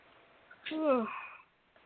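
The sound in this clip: A voiced burp after drinking fizzy soda pop, lasting just under a second with a tonal, gurgling quality that sinks slightly in pitch, heard alone against a quiet background.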